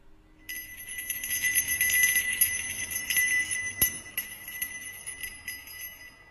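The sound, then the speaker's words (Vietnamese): A bell rings during a ghost-wedding ceremony, a bright sustained high chime that starts after a brief pause and holds steady with a shimmering tone. A single sharp click cuts in near the end, with no voices. “Tiếng chuông thứ nhất bắt đầu ngân lên.”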